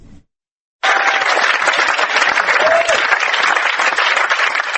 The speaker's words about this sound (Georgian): ბერლინის კინოფესტივალის დარბაზი ფეხზე ადგა და ოვაციები გაუმართა არა მხოლოდ კლოდ შაბროლს, ფრანგ სცენარისტს, მსახიობს, კინოკრიტიკოსს, კინორეჟისორს, არამედ საერთოდ ფრანგულ ახალ ტალღას,